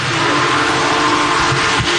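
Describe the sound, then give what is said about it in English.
Loud, steady roar of the world's largest operating steam locomotive, a Big Boy, passing crowds on a whistle-stop tour in Webster Groves: a dense, continuous rumble with a faint tonal hum running through it and no voices. “It took less than 1 minute for Big Boy, the world's largest operating steam locomotive, to pass hundreds of people along its whistle stop tour in Webster Groves.”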